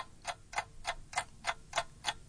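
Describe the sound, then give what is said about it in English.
A quiz-game timer ticks in seven sharp, evenly spaced clicks, about three per second, steady and moderately loud with no talk over them. “You may set the timer first time. Timer start.”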